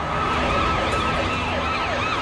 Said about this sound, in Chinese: 南京城内大规模的搜捕已经开始，警车的鸣叫声不时地从窗外传了进来